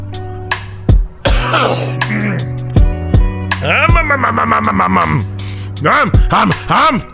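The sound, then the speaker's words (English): A man with a tickle in his throat clears it and coughs a few times, with rough, voiced bursts mixed among short spoken sounds. “Hold on a second. I got a tickle in my throat.”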